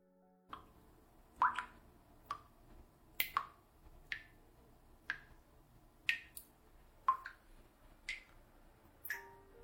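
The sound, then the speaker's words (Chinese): Water drips from a sink faucet left running in a living room: many faint, sharp plinks fall at irregular intervals. “这一阵阵的水滴声进入了我的耳畔，我听得出，那是客厅的洗手池那边传来的，想是大概没有关好水龙头吧。”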